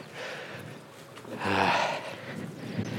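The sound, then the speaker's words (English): A horse in a thick red padded jacket snorting beside a stile in a springtime oak wood in the Brecon Beacons, one loud breathy blow midway with softer breathing around it. “Well, there's a horse blocking our way to the stile.”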